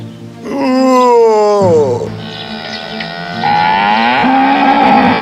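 A cow moos twice in long, low, bellowing calls. The first is loud and falls in pitch near its end; after a short lull the second rises and holds steady and strong. No voices are heard.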